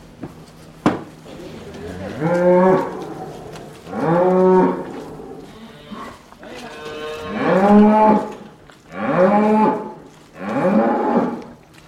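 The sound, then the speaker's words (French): A calf separated from its mother mooing: five loud, drawn-out bellowing moos at regular intervals, with a fainter call between them. “Un veau qui était séparé de sa maman.”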